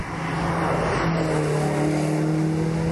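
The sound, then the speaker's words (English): A Porsche 944 Turbo race car going past, its engine a loud, steady droning note that holds through the whole stretch. “What have we got now? Another Porsche.”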